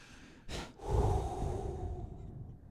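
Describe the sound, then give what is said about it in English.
A person draws a quick breath in, then lets out a long breath that slowly fades. It is quiet and heard alone. “Can I take a quick breather here? I'm going to breathe in and out.”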